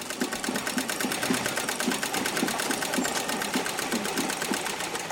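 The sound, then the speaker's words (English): A sewing machine runs during a sewing class for women, giving a steady, rapid mechanical clatter with an even rhythm. It holds at a constant level throughout, with no voices. “These women are getting trained on two kinds of sewing machines. One is a treadle machine.”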